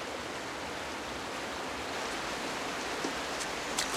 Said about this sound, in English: Deep in the forest, John Smith stops at the edge of a waterfall.